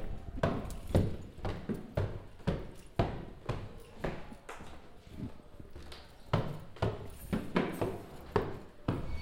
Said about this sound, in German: Ich komme da jetzt mal hoch. Drei Stockwerke Treppen.